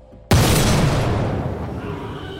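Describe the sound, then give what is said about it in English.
A 12-bore shotgun shell loaded with lead shot exploding: one sudden, loud, heavy blast that booms out and then fades slowly over the following two seconds, with no voices. “Exploding in a fiery burst, a 12-bore shell of lead shot ripped apart his upper left arm”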